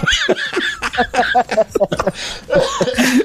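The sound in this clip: Coughing while laughing, rough coughing bursts tangled with voiced laughing sounds in a quick, uneven run, fairly loud and without clear words.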